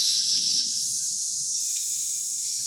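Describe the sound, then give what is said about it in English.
A group of people hisses in place of clapping to show approval, a steady, breathy hiss that stays fairly faint and even, swelling slightly near the start and then holding at one level. “a hiss is the kind of a sound of disapproval”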